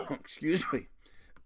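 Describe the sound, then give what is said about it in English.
A man with a lingering cough coughs and clears his throat in short, rough, voiced bursts, ending with a brief, sharp hack. “as you notice, I still have this damn cough”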